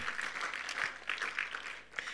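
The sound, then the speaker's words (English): Faint audience applause in a Baptist church after the morning's worship team: a soft, continuous patter of many hands clapping with no voices over it. “Yes, I think you can give them a round of applause if you'd like to.”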